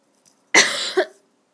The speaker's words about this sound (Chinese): 抱歉，抱歉，我刚刚突然喉咙好痒，我去咳了一下。